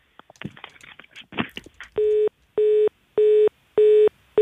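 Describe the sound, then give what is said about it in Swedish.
A telephone busy tone follows a dropped call: after a voice speaks, five even, loud, mid-pitched beeps pulse at a steady rhythm, each about half a second long. “Nej, det föll bort där ett samtal.”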